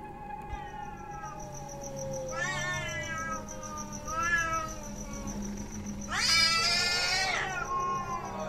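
A cat standing on a windowsill yowls and growls as if ready to fight, letting out three drawn-out wavering cries, the last one the loudest and harshest.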